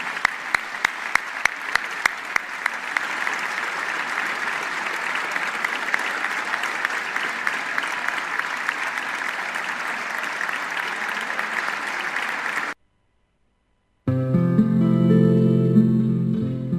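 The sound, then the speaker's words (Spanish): Sustained applause fills a legislative chamber as lawmakers honor two deputies, a dense, steady clatter of many hands holding level for about thirteen seconds before cutting abruptly to silence, after which a different sound begins. “El aplauso fue sostenido, con afecto, y de todos los sectores políticos.”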